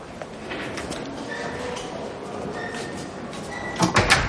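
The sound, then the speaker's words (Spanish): A nurse opens a door into a prison infirmary, heard as a few dull knocks and clunks near the end over a steady background hiss. “El enfermero abre una puerta.”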